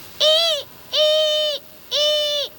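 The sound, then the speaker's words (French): A barn owl calling at night over forest and countryside under a full moon: three drawn-out, steady calls of equal length, evenly spaced, each with a bright, harmonic-rich tone. “On dirait des ululements. Une bestiole qui ulule la nuit dans les airs sans que je puisse entendre ses battements d'ailes, c'est forcément une chouette effraie.”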